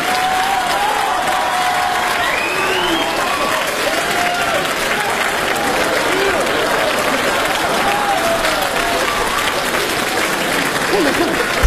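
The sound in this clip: Dense, sustained applause from a live audience at a Beijing stage comedy show, loud and steady for the whole stretch without a break.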